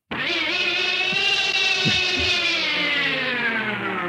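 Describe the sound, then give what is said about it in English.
A steady droning hum stands in for a subterranean elevator. It is rich and buzzing, holds for about four seconds at near-constant loudness, and its pitch drifts only slightly. “Very appropriate. A subterranean elevator to the rescue. I wouldn't ride that thing.”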